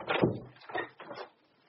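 A door being opened: three short, faint bursts of scraping and knocking, the first the strongest, then quiet.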